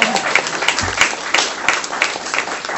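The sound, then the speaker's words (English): Applause from people gathered in a room: many hands clap in a dense, steady patter that keeps a fairly even loudness throughout. “round of applause from our folk in the room”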